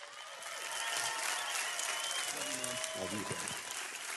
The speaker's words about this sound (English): I just want you one more time to put your hands together and welcome my friend, Pastor Robert Morris, to the stage.